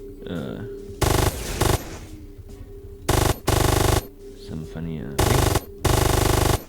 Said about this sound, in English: So I'm now using the speed machine gun. The rapid machine gun, sorry.